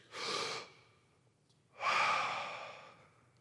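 A person takes deep, airy breaths with no talk: a short, loud breath, then a pause, then a longer breath that slowly fades away.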